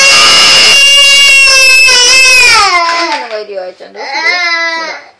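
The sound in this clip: An infant cries in loud, high-pitched wails, one long sustained wail that sags downward in pitch, then a brief break and a second, shorter cry.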